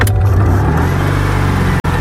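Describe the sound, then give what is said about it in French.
A sky-blue 1970s two-horsepower car sets off along country roads through fields, its engine giving a steady, loud low drone with a buzzing rasp that holds even throughout, cut by one brief drop-out near the end. “On va prendre le volant d'une deux chevaux et parcourir les routes à travers les champs du Luberon. Allez, c'est parti, on y va.”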